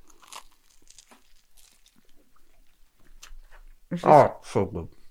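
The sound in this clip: Biting and chewing a bacon, banana and brioche sandwich: faint, scattered crunchy clicks of mouth noise, then a louder burst of voiced sounds near the end.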